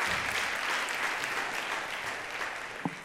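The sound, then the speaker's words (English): An audience applauds steadily for a team at a Frontline Downtown church women's discipleship gathering, a continuous wash of many clapping hands at moderate loudness throughout. “Can we just give a hand to this incredible team?”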